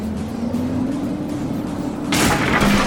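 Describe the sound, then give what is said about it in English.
A forklift fitted with robot arms crashes into a giant tank and a pallet of boxes: a steady low engine drone runs for about two seconds, then a loud, harsh crashing burst breaks in and carries on to the end. “He just drove into a giant tank of Snood flues. And a pallet of boxes. Oh, and a conveyor belt.”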